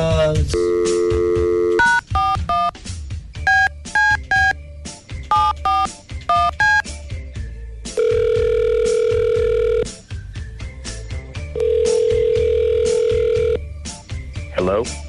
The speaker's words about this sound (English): We'll give him a call right now.